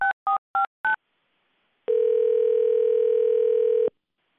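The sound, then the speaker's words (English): Telephone keypad dialing: four short, clipped tones in quick succession, a brief pause, then a steady, loud tone held for about two seconds before it cuts off. “Let's dial the number and get our first winner on the line.”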